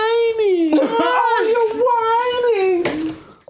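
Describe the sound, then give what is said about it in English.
Whining from a cartoon pony character: a high, drawn-out, nasal wail that wavers up and down in pitch for about three seconds before trailing off. “Whining. This is whining.”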